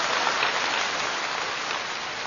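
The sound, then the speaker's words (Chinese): Audience applause at a crosstalk comedy show: dense, even clapping that holds steady throughout with no voices over it. “谢谢您的掌声，谢谢您的掌声，谢谢您的掌声，”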